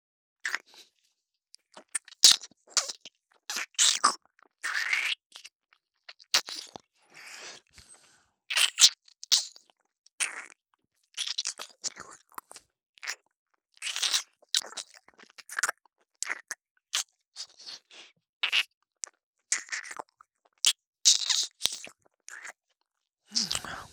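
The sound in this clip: Chewing and crunching eating sounds come as many short, crisp bites and crunches in an uneven rhythm, with soft talk at times between them.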